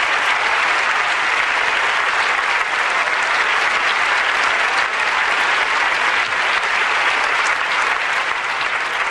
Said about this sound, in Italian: Qui ci sono gli applausi naturalmente.